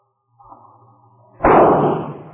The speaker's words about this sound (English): Jace, here's a Smith & Wesson 38. Brought it back from Austin. You mind shooting a slug into that tree?